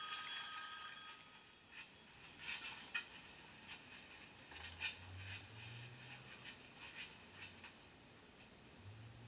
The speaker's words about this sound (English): Oh, no, don't be alarmed. That's just a phone.